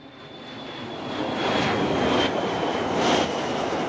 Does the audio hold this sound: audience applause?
no